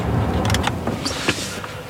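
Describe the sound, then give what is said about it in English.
An electric car, a Nissan Leaf, starting up: a steady low hum with a few brief clicks and a short soft whir. “Let's fire up the car and turn off the heater.”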